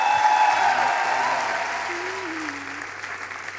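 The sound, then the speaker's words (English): Audience applause at a live concert in Paris, dense, steady clapping from the crowd that holds throughout and eases slightly, with a faint voice underneath. “Can you give her a big round of applause?”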